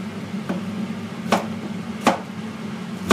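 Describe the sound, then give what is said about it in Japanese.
Knife cutting sweet potato gives a few sharp, crisp thunks on a board, spaced roughly a second apart, over a steady low hum with no talking. “今はさつまいもを切ってますよ”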